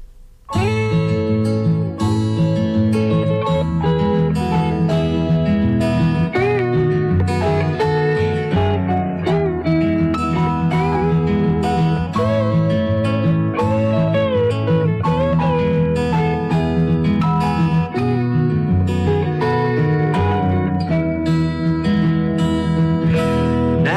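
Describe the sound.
A full band song plays throughout, steady and loud, with a driving beat and layered instruments.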